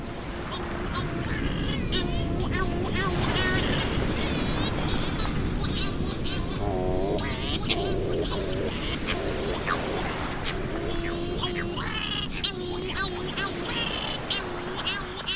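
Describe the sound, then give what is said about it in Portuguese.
Cory's shearwaters calling in the Azores: many overlapping nasal, wailing cries rise and waver in a dense, loud colony chorus that runs without a break for about fifteen seconds. “Quem visita os Açores, principalmente no verão, um dos sons que rapidamente reconhecerá é o som dos cagarros.”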